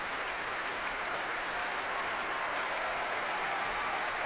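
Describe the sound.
A concert audience at the Proms applauds an orchestra and its conductor as he returns to bow, producing dense, continuous clapping. It holds a steady level throughout, with no pauses or voices.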